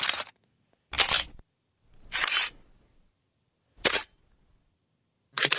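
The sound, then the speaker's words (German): Analog film camera being operated, its shutter firing and film advancing: five short mechanical clacks and ratchets, each separated by silence, fairly crisp and evenly loud. “Tja, da geht was auf, da geht was zu, da bewegt sich was und am Ende ist ein Film, den man dann zum Entwickeln bringt und dann kommen dann Fotos raus.”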